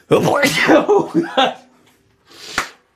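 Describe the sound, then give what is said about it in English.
A single big sneeze bursts out near the end, after a stretch of people talking, rising briefly to a sharp, loud peak before cutting off. “that was a big sneeze.”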